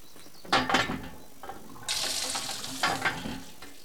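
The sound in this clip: Water splashing from a hand pump as someone washes, heard as a short burst of gushing and spattering followed by a longer, steady stream that swells again before it ends, with no voices.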